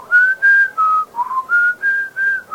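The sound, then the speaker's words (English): A man whistles to a bird: a string of clear, sustained mid-pitched notes, about eight short phrases with brief gaps between them, one in the middle wavering and trilled. The whistling is loud and steady, with no talk over it. “The beggar whistles to the bird,”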